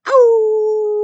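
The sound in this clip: A person's voice imitates a wolf howl: a single loud, sustained, tonal call lasting about a second that holds a steady pitch after a brief breathy onset.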